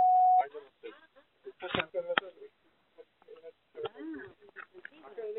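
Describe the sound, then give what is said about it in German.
A single short, steady electronic beep from a voicemail answering machine signal tone sounds clearly at the start, holding one even pitch, then gives way to spoken voices. “Nach dem Signalton nehmen Sie Ihre Nachricht auf.”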